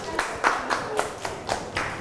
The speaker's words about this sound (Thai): อ๋อเก่งมากเอาปรบมือให้กลุ่มนี้ก่อน